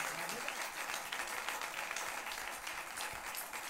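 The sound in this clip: A crowd claps along during a Persian devotional chant gathering. The hand claps are dense and steady, run throughout and stay fairly faint.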